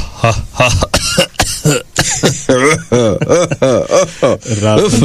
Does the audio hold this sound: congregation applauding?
no